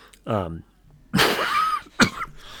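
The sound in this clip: A person with a dry throat coughs: a harsh, noisy rasp followed by one short, sharp cough, preceded by a brief voiced sound.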